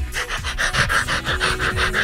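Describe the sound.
A pet dog pants excitedly at the prospect of treats, with many quick, rhythmic huffing breaths at a steady pace and moderate loudness, and no voices.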